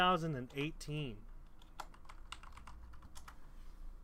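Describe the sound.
Typing on a computer keyboard while entering a search: a person speaks briefly, then light, irregular key clicks follow, quiet and uneven.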